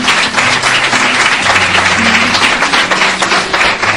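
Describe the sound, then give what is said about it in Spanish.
Audience applause offered in tribute to an honoured person: loud, dense clapping from many hands, sustained and fairly even throughout, with slight swells in intensity. “Darle el aplauso a él.”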